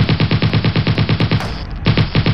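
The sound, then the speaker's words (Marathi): Automatic machine gun fires indiscriminately from behind a huge tree: a loud, rapid, evenly spaced stream of shots breaks off briefly, then resumes at the same fast rate. “एका प्रचंड वृक्षाआड दडलेल्या दहशतवाद्याने automatic machine गनमधून अंदाधुंद गोळीबार केला.”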